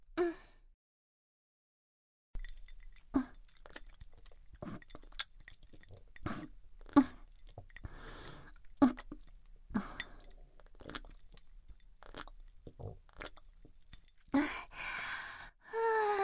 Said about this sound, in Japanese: 休憩。お水っと。水分補給するね。